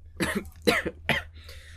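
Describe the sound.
A sick man coughs three times in a quick, harsh series of raspy bursts, followed by a faint breathy exhale.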